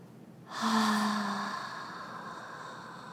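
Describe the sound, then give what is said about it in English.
A slow, deep exhale through the mouth during a guided breathing exercise: one long, breathy rush of air that starts abruptly, peaks early, then gradually fades over a couple of seconds. “steadily, deeply exhales. Breathe out through mouth.”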